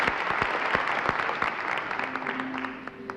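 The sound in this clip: A studio audience applauds at a live concert of Black Sea folk music, with many hands clapping in a dense, steady patter that eases slightly toward the end.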